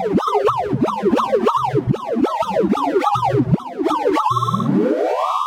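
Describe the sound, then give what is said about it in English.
A sonified sorting algorithm, a computer program organizing data, plays rapid synthetic tones that swoop up and down in repeated arcs. The sound ends in a smooth, steadily rising run of pitches. “My name is Wouter Bernhard, and that sound you just heard is a sorting algorithm, a computer program that is trying to organize a whole bunch of data.”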